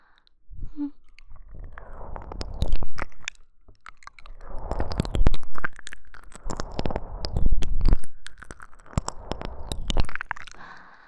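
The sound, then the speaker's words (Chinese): Wet mouth sounds of an ASMR ear-eating roleplay: many crunchy clicks, smacks and chewing noises in dense bursts that swell and ease several times, with no talking. “感觉老公的耳朵被清理过之后变得很好吃的。”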